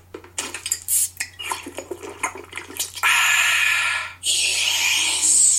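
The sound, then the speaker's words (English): Coca-Cola being opened and poured: a run of irregular clinks and rattles, then a loud, sustained fizzing hiss that breaks off briefly and resumes. “That wasn't sound effects. That was a Coke.”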